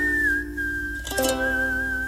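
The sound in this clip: A person whistles a sustained, high, slightly wavering note, broken midway by a short noisy burst before the tone carries on.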